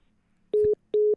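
A phone line tone sounds after a radio caller's call drops: two short, steady, mid-pitched beeps of equal length separated by a brief silence, heard alone.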